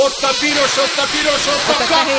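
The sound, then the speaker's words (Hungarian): Hard breath blown through a tube into a breath-measuring device, a steady, loud rushing hiss that fills the whole two seconds without a break. “Na most fújj meg, na, most lesz a jó, most bekapcsoltam.”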